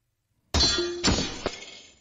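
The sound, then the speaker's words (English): A shield bashing against another shield gives a bright metallic clang with a sharp onset and sustained ringing, followed by a second strike and a smaller third knock as the ring slowly fades. “Shield bashes shield. See, it's like, sparks obviously fly”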